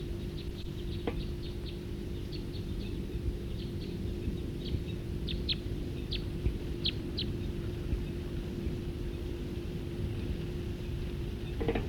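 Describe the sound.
A bird calls in flight, giving many short, high chirps in irregular clusters, fairly faint over a steady low background rumble.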